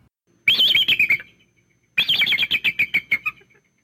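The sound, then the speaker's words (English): A bald eagle calls in two bursts of rapid, high, thin chittering notes, each run of sharp piping pulses trailing off, separated by a short silence. “Here's the sound of a bald eagle.”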